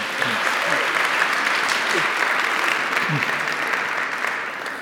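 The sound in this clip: Audience applause welcoming a speaker: dense, sustained clapping for nearly five seconds with a few voices calling out in the crowd, easing slightly toward the end.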